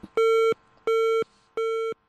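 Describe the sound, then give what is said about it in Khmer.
Three telephone tones sound after a call is hung up: identical steady beeps, each about a third of a second long, evenly spaced with short gaps. They are loud, flat in pitch and heard alone without any voices. “លោកមមប៊ុនហេងរដ្ឋមន្ត្រីក្រសួងសុខាភិបាលលើកទូរស័ព្ទហើយប្រាប់ថាជាប់ប្រជុំហើយចុចបិទទូរស័ព្ទវិញ”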